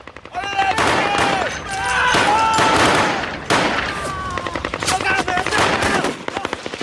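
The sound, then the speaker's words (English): Sustained automatic gunfire as Marines return fire at fleeing insurgents in a narrow alleyway, dense, loud overlapping bursts of rapid shots running almost continuously, with brief voices mixed in. “They turn to let off a few rounds. The Marines return fire.”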